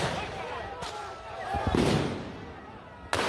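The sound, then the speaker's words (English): Sharp shots of police firing rubber bullets and tear gas while clearing a street area known for drugs: a few abrupt bangs cut through dense, continuous background noise. “It's of police clearing an area notorious for drugs. They're firing rubber bullets and tear gas at street people.”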